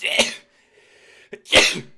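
A person sneezes twice, sharp and loud, about a second and a half apart, with a faint breath and a small click in the quiet between.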